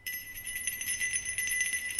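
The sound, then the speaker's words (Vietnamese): Bells ring at night near a Catholic parish village, a bright, shimmering run of high chimes that pulses steadily for two seconds with no voices. “Ở bên kia, hàng loạt những tiếng chuông từ nhỏ đến to cứ réo rắt vang lên.”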